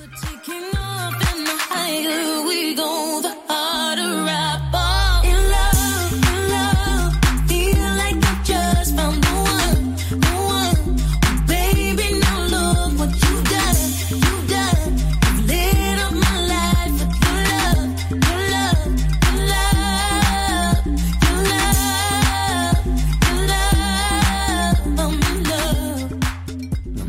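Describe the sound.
A new electronic pop song plays, starting with a brief synth intro and a short pause, then a steady, pounding beat under layered synths and a deep bassline at a consistently loud level.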